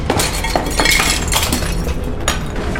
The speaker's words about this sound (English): crashes through the window above the barricaded furniture.